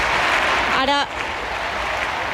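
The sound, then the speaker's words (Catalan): Crowd applause at a large event with the Pope and young people, a dense, loud, continuous roar of clapping that is steady throughout. “Ara uns grans aplaudiments, però els càntics sí que no els sentíem amb nitidesa.”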